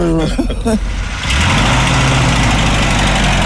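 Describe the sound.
Engine of an original military jeep running during a ride, a loud, steady rumbling roar with broad road and wind noise that rises and takes over after a short stretch of voices at the start.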